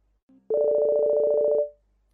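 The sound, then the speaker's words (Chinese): A mobile phone ringtone sounds from a handbag lying on the floor. A faint low beep comes first, then a short electronic two-tone burst with a fast, warbling pulse. “突然，苏雪薇被遗弃在地上的坤包里传出一阵悦耳的手机铃声”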